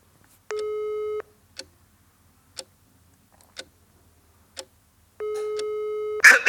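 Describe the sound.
Ringback tones of a telephone call sound twice as steady, buzzy electronic beeps. Between the two tones, four evenly spaced sharp clock-like ticks fall in a quiet pause.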